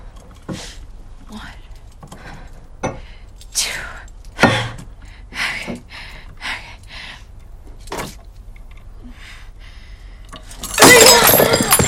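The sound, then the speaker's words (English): Glass shatters in a tightly gripped hand braced against the split edge of a wooden shelf: several soft knocks and clinks lead up to a sudden loud, bright, crackling break that stays sustained and harsh to the end. “Splinters of glass fall across her face and hair. She lowers her right hand to see the damage. The glass has shattered.”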